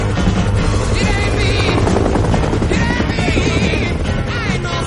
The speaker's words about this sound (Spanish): El helicóptero aterriza en la base y los dos amigos bajan con sus macutos.